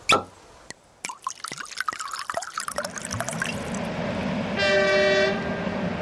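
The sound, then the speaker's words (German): A narrow-gauge railway train travelling up into the Alps on Austria's longest narrow-gauge line: a few sharp metallic clanks give way to a steady rolling rumble, then a loud, sustained horn blast sounds near the end. “Von St. Pölten fährt die Mariazeller Bahn hoch in die Alpen. Mit 84 Kilometern die längste Schmalspurbahn Österreichs.”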